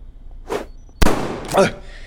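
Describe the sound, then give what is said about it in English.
A single sharp gunshot-like bang cracks out between short vocal grunts before and after it, loud and abrupt with a quick decaying tail. “That's 8 bullets. He's empty.”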